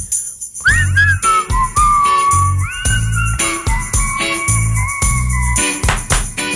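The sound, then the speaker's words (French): A person whistles a bright, gliding melody over a rhythmic music backing with heavy, regularly pulsing bass beats. The whistled line is loud and continuous, with no talking. “Prêt à siffler.”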